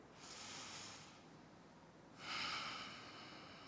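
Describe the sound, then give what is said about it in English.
A church audience takes a deep breath together: a soft, airy rush of many breaths in, a brief lull, then a louder, fuller breath out that trails off slowly. “I'm going to ask us to just take a deep breath. Like actually, just collectively on the count of three. One, two, three.”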